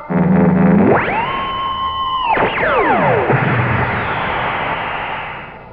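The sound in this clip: Electronic weapon-firing effect in a drama: a tone sweeps sharply upward and holds for about a second, then several tones slide steeply downward into a loud, lingering noisy rush.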